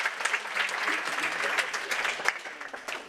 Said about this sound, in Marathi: आपल्या या मैत्रिणीसाठी एकदा जोरदार टाळ्या उंचावदा.